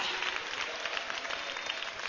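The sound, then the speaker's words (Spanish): A church audience applauds during a service, producing a fairly faint but continuous patter of many hands clapping at a steady level. “Démosle un aplauso al Señor, hermana, hermano.”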